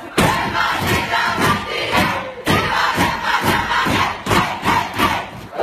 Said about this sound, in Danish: Det er altid fedt med noget godt humør fra omklædningsrummet.